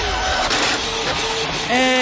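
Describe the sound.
A malfunctioning ticket machine prints with a whirring, grinding mechanical drone that runs steadily throughout, with voices talking over it.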